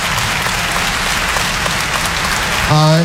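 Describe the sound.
Audience applause at a stand-up comedy show: a dense, steady wash of many hands clapping that holds for the whole stretch, with a voice breaking in right at the end.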